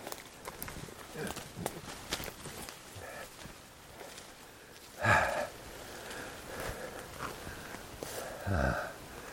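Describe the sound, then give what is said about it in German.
Footsteps pushing into bushes, a steady low rustle of feet and foliage with a couple of sharper crunching bursts near the middle and end. “Dann gehe ich mal in die Büsche. Was auch immer hier zu finden ist.”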